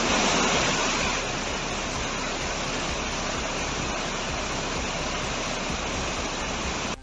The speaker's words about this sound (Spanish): del Iregua, donde la desembocadura del río Iregua con el Ebro puede sufrir un incremento del nivel del agua que ya suena así, con esta fuerza en las últimas horas, a su paso con fuerza por La Rioja.